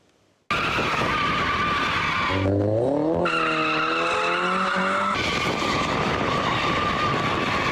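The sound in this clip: Tires screech loudly as cars drift on a road in Ankara, bursting in after a moment of quiet and holding a sustained squeal over roaring engines, with a climbing engine whine partway through.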